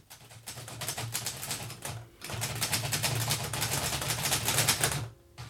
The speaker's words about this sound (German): tippte gerade den letzten Bericht